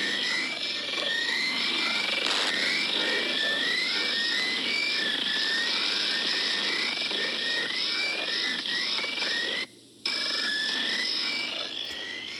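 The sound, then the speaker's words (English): A number-station transmission of weird tones: high, repeating chirp-like tones that sweep upward, laid over a dense, steady hiss, with a brief dropout near the end. “a number station consisting of weird tones and distorted voices. I'm going to just play the station and then I'll discuss what's its deal is. So here it is.”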